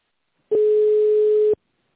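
A telephone line gives one steady, single-pitched electronic tone, about a second long, while an automated phone system connects a call to a secretary. The tone starts and stops abruptly and is heard alone, followed by a faint click.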